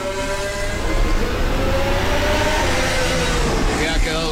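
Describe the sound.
Lando Norris's 2026 McLaren Formula 1 car on its warm-up lap gives a steady, high engine whine whose tone creeps slightly upward, holding loud throughout under a commentator's voice.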